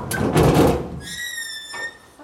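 A heavy sealed door, holding cans, is pulled open by the handles underneath it. A broad scraping rumble leads into a sustained, high metallic squeal that fades near the end.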